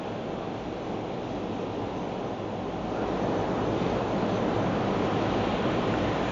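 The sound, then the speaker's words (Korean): Ocean surf washes steadily below a seaside hotel balcony facing the sea in Jacksonville, Florida, a continuous broad hiss and roar that grows a little fuller partway through, with no voices. “바다를 보고 있는 호텔인데 파도 소리가 들리시는지 모르겠네요.”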